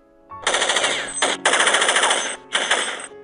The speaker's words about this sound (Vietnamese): Tức thì một loạt đạn xả về phía này.